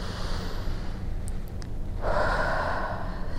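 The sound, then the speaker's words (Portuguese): A deep breath drawn in through the nose during a guided relaxation exercise: quiet at first, then a soft, airy inhale swells up partway through and holds steady to the end, with no talk over it. “Respira fundo pelo nariz.”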